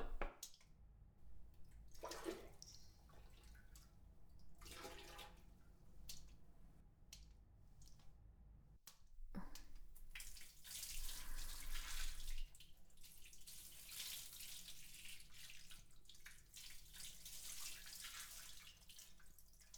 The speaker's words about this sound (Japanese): では、お流しいたします。